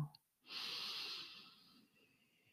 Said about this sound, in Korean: 다시 한번 호흡을 길게 들여 마시고,